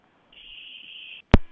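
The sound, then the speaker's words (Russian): Dropped phone call on a radio call-in line: a steady high electronic tone lasting about a second, then a brief gap and a single sharp, loud click. “Какой-то странный день сегодня. Странный. Все звонки да, срываются.”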